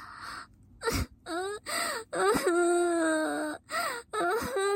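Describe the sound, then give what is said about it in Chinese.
A woman crying in wavering, voiced sobs and wails, broken by short gasping pauses between several loud bursts, with no words spoken. “不要哭了，哭有什么用？”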